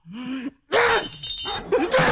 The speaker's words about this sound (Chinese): 爸，爸，别砸了，家里快砸光了。